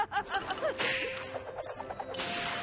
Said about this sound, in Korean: 이제 마지막 공격이야. 다이노 파워 펀치.